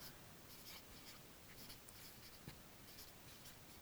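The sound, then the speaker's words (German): Faint, continuous scratching of writing on paper, with soft irregular strokes. “ich schreibe das hier dazu. Falsche Selbsteinschätzung.”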